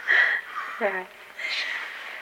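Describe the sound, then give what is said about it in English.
Loud wheezing from a man with sleep apnea: a harsh, hissing breath with a thin whistle in it, then a short voiced grunt and more breathy rasping. “His wheezing is so loud. Got sleep apnea.”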